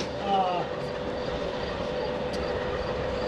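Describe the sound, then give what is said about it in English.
Union Pacific freight train, likely intermodal, rolling past at a railroad park in Rochelle: a steady, dense rumble and hum of moving cars, with a brief high wheel squeal near the start, continuing evenly throughout. “Union Pacific train here, probably doubling up out of the Global 3 Intermodal,”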